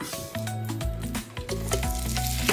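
Oil sizzles in a frying pan, a loud, steady hiss with dense crackles and pops running continuously, with no voices over it.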